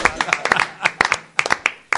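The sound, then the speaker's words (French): Hands clapping during a word-guessing game show: many sharp, irregular claps in quick bursts with short gaps between them, and voices faintly present. “Oh, j'applaudis.”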